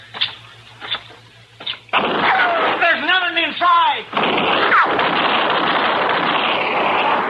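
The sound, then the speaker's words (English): Gunshots in a radio drama shootout: a few sharp, booming shots ring out separately, then loud speech from a man takes over. “All right, come on out of there. Come on. There are two of us here. Don't shoot anymore. I'm hit.”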